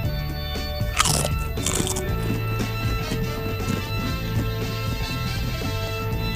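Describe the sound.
Someone crunches on sour cream and onion vegetable chips while tasting, with two sharp, loud crunches near the start followed by softer, steady chewing over a constant background hum.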